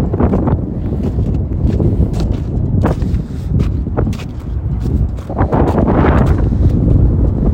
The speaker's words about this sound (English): Sorry, guys, this hella wind kind of sucks.